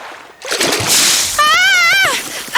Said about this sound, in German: Ah! Jemand hat mich nass gespritzt.